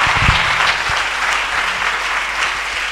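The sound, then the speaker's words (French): An audience applauds at a church service, acclaiming the Holy Spirit. Dense, continuous clapping from many hands holds at a steady level from start to finish, with a few low thumps near the beginning. “Tu vas te lever pour acclamer la personne du Saint-Esprit.”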